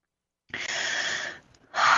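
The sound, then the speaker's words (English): A big deep breath taken during a guided prayer, one long airy rush of breath that holds steady, fades into a short pause, then a second breath swells back in strongly. “let's just take a big deep breath together”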